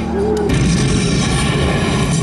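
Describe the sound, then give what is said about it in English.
A power attack explosion in a video game bursts out as a heavy, low boom, followed by a sustained rumbling roar that stays loud to the end. “Okay, oh, that was a power attack. No, it was a boom. Here's a power attack.”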